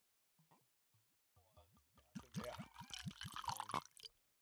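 A whisky bottle being opened by someone lying on a hotel bed. A few short, hollow pitched blips come first, then about two seconds of dense crackling and rustling with faint liquid-like gurgles.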